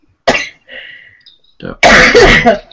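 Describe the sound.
Coughing after something went down the wrong pipe: a sharp cough, then softer throat-clearing sounds, then a long, loud hacking cough, alone without talk.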